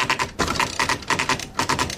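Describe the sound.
An electronic typewriter from the 1980s with word processing and a correction tape being typed on. The key strikes clatter in quick, rhythmic bursts separated by brief pauses, at a moderate level.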